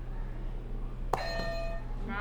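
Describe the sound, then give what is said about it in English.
A buzzer button pressed once, giving a sharp click followed by a short, steady electronic tone over a low, constant hum. “Why don't you hit a buzzer for me, okay?”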